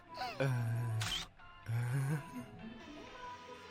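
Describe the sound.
A camera shutter clicks once, a brief sharp snap set between longer voiced sounds.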